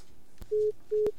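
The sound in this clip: A telephone call on a radio phone line cuts off into two short, steady, mid-pitched busy-signal beeps separated by a brief gap, each marked by a sharp click.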